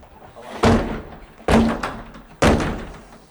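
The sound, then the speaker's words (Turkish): Three heavy thuds as a locked terrace door is forced open with shoulder barges and kicks, each impact loud and sharp with a short rattling decay, spaced about a second apart. “kapıyı omuz ve tekmelerle kırdı. O anlar cep telefonu kamerasına yansıdı.”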